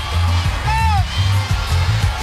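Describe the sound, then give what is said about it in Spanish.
A crowd cheering and chanting the name of politician Keiko Fujimori as she passes, surrounded by state security. The crowd noise is dense and continuous, with a rhythmic pulse and a brief whistle-like whoop early on. “estamos verificando cómo la gente está vitoreando su nombre, está saludándolo para ambos lados.”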